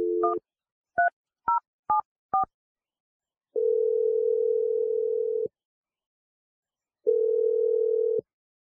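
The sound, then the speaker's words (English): Telephone dialing a phone number: five short keypad beeps of varying pitch, then two long, steady ringing tones separated by a pause. “I'm going to dial your roommate Lily's number and let you make your call.”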